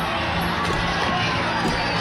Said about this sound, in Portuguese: Nas ruas de Havana há gritos de ordem.